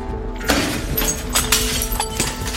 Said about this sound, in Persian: بیوک با سنگ شیشه یه درو میشکنه